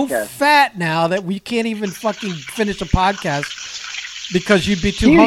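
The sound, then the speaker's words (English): Chicken cutlets frying in a pan give off a steady, high sizzling hiss that begins early and runs beneath almost constant talk, coming through most plainly during a short pause in the middle. “What is all that noise? I'm cooking chicken cutlets over here.”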